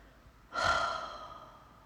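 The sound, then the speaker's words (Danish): A deep exhalation during a breathing exercise: one long, soft rush of breath that starts abruptly and fairly loud, then slowly fades away, alone without talk. “En dyb udånding.”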